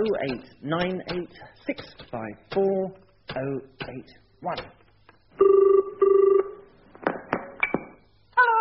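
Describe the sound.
A telephone call being placed: after a stretch of talk, a steady two-tone ringing signal sounds in two sustained bursts, followed by more voices.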